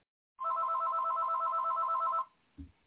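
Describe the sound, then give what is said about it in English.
A telephone rings from a private caller: a single sustained burst of warbling electronic ringing that stops abruptly and is followed by a brief, low thump. “Calls from private caller.”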